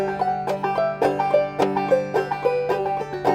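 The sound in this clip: Clawhammer banjo played with a loose, relaxed right hand up the neck: bright plucked notes in an even, bouncing rhythm, each attack ringing briefly over a steady low drone string.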